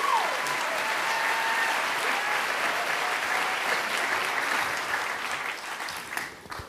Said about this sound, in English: And to explain what happened on April 13th, we have a guest who was there, Larry Langford from the Chicago Fire Department. At the time, he was a radio reporter. Please welcome.